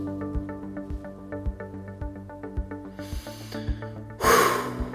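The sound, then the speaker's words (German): Deep breathing in and out during running interval training. A short breathy rush is followed by a louder, longer huff, both over steady beat-driven music with a regular thumping pulse. “Schön tief ein- und ausatmen.”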